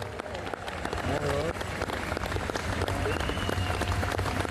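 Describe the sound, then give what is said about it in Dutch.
An audience in Amsterdam applauding a woman being honoured: a soft, steady patter of many hands clapping, with scattered voices mixed in underneath. “te begeleiden in het zenden van een applaus en energie aan een vrouw die meer dan dat verdient, maar ook aan alle anderen die ziek zijn en hier niet konden zijn. Laat u horen, Amsterdam.”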